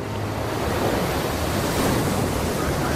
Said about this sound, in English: Churning spray on a rocky shore.